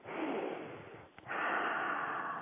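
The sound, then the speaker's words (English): A slow, deep breath during a guided relaxation exercise: a long airy inhale, a brief pause, then an equally steady exhale, soft and continuous with no talking. “I'd like you to focus, take a deep breath.”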